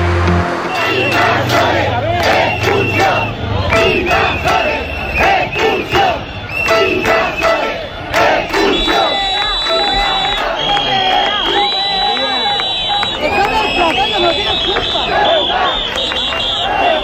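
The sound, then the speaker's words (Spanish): Hundreds of protesters at street demonstrations in Ceuta shout and chant together in a loud, continuous roar of many voices. “Ese era el sonido ayer de las manifestaciones de cientos de ceutíes”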